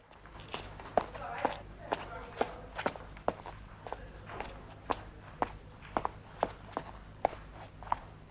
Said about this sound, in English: He hurries out of the recreation room, down the corridor and up the stairs.